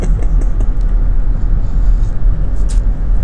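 Steady road noise from inside a car being driven, a constant loud low rumble with a hiss above it that holds evenly throughout with no talk.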